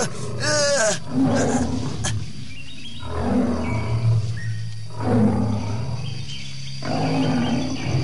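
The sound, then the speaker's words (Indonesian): A tiger roars in several deep, loud, growling bursts that follow one another with little pause, each carrying a rough, rumbling tone. “Oh, harimau! Matanya ganas memandangku.”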